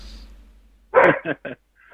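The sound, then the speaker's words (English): A dog barks three sharp, loud times in quick succession, the first bark longest, after a stretch of near quiet, with a faint fourth sound starting at the very end. “Sorry about my dog. Oh, that's all right. I got the same thing over here going.”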